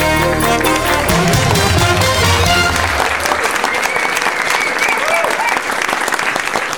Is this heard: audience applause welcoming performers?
yes